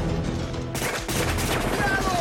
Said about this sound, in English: So we'll pick things up with Billy firing from the top of his perch down onto the Palapa.